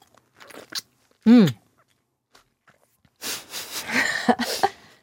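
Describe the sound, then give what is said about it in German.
Someone bites into a juicy plum with a single sharp, loud crunch. A pause follows, then a stretch of wet chewing and mouth noises. “Jetzt beiße ich mal hier in diese Pflaume rein.”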